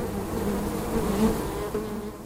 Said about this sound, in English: First, here's the sound of honeybees.